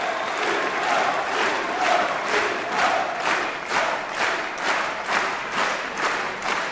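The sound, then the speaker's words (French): Applause and cheering from a concert audience made up largely of professional musicians, greeting American performers; loud, sustained clapping with steady rhythmic surges and shouts throughout. “Le public est conquis, comme vous pouvez l'entendre, et il est constitué pour une bonne partie de musiciens professionnels venus écouter leurs confrères américains.”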